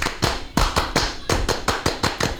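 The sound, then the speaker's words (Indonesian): A group performs the rhythmic Pramuka scout clap, sharp unison claps in a patterned beat with short pauses between phrases, many loud strikes and no talk. “Ya, tepuk pramuka. Baik kakak ulang, tepuk pramuka.”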